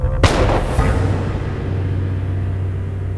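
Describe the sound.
One loud, sharp pistol shot rings out during a duel on a plateau. It decays into a long rumbling tail over a steady low drone.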